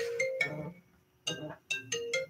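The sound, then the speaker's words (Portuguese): An incoming call sets off a melodic electronic phone ringtone, playing short bursts of bright tones, a brief pause, then more quick tone phrases, fairly faint overall. “Desculpa aí, gente. A gente tentando ligar agora, agora não, né?”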